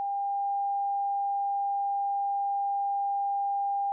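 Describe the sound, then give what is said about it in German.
A quiet, steady sine tone at a single mid pitch, held unchanged for about four seconds with nothing else audible. “Hören wir zunächst einen leisen Ton.”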